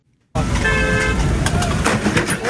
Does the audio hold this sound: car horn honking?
yes

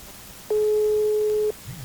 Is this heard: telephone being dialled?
yes

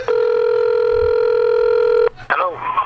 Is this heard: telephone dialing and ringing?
yes

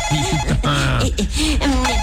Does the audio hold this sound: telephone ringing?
yes

